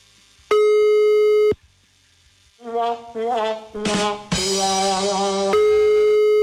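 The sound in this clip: Telephone busy signal heard while placing a call: a steady electronic tone sounds, breaks off, and returns later, with other sounds on the line in between.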